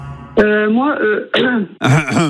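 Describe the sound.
Throat clearing from a woman calling in before singing, who says she skipped her honey that morning: three rough, voiced bursts in quick succession, each breaking into a strained, tonal rasp, fairly loud with no other voices.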